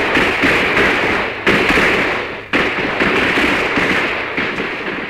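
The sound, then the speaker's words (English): Fourth of July fireworks go off in a loud, dense, continuous crackling hiss, broken by a couple of sharp sudden bursts. “He was selling 4th of July fireworks.”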